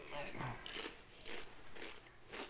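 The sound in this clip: Crunching of cheddar-flavoured chips as they are bitten and chewed, several short crisp bursts spaced unevenly, faint and soft.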